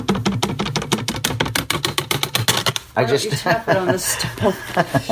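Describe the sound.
Many rapid, even metallic taps of a large melon knife against a stove. The knife has a 13-inch blade with holes along it and a big handle. The steady tapping gives way to people talking.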